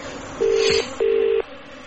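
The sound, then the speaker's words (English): Telephone keypad tones as a phone is dialed to call security: two steady, identical beeps of equal pitch, each lasting under half a second, separated by a short gap, loud over faint background hiss. “Now it's covered in the sleeve, and I'm going to phone security.”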